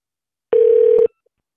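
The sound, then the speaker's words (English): A telephone tone sounds during dialing for a callback: a single clean, steady beep lasting about half a second, with silence before and after. “I think we should give him a Pran Funkles callback.”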